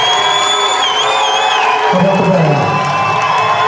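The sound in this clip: An audience cheering as a performer announces his retirement on stage: loud, sustained crowd roar with whoops and high shouts that carries on without a break.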